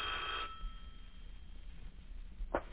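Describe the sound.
Telephone rings in a home: a brief, faint bell-like ring at the start, then a short second burst near the end, over low background hiss.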